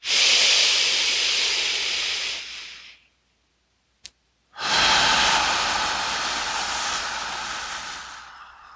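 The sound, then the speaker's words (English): Long, breathy exhales during a guided relaxation and meditation session: two extended rushes of breath split by a short silence, with a faint click in the gap. Each rush swells loud and then slowly fades away. “letting go of tension on the exhale. Pushing out every last molecule.”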